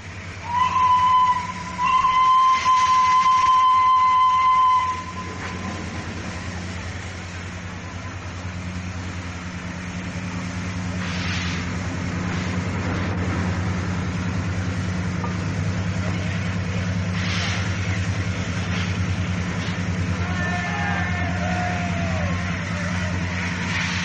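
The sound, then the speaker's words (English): A veteran LNER and British Railways steam locomotive departs on its last working run, with a loud passage and a steady high tone in the first seconds. A low, even rumble and hum then builds gradually. “the historic departure of Flying Scotsman on the last working run as a British Railways locomotive, having steamed for the LNER and British Railways no less than 2,076,000 miles.”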